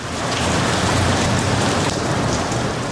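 Pouring rain falls in a dense, unbroken hiss that holds steady and loud from start to end, with no voices.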